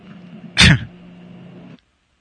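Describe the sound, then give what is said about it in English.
A single faked sneeze: one short, sharp, breathy burst, followed by a faint low hum that stops abruptly before the end. “Did you just sneeze, or yeah. Were you faking sneeze?”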